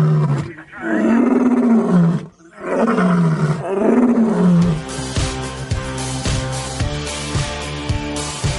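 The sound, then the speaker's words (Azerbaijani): A lion roaring: several long, deep, groaning roars, each sliding downward in pitch, loud and separated by short breaths, after which a steadier rhythmic sound takes over. “Aslanlar nərildəyərkən səs ətrafda çox effektivli şəkildə əks-səda yaradır.”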